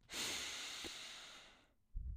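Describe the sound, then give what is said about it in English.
One deep, drawn-out breath in through the nose, a soft, airy hiss lasting over a second, then a short low puff at the end. “take a big breath in through the nose,”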